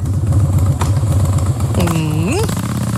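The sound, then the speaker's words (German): A Harley-Davidson motorcycle engine idles at a Harley Day event with a low, loping, uneven throb. A brief higher tone sweeps upward near the end. “Kann man auch direkt riechen, ne? In Dresden finden wieder die Harley Day statt.”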